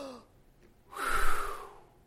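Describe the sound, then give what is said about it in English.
A single deep breath: a soft, breathy rush of air that swells and then fades over about a second, heard alone with no talk. “if you're feeling stressed, just to take those deep breaths from the core of your being”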